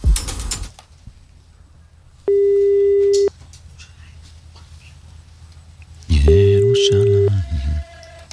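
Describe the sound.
Telephone busy signal: two steady mid-pitched tones, each about a second long, separated by a few seconds, with a brief noisy burst at the start and rougher low sound under the second tone.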